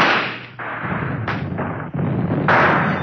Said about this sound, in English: Time for the attack signal, Major. Fire your pistol.